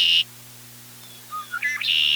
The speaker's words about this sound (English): nothing can cheer me up like a redwing song on my bird records.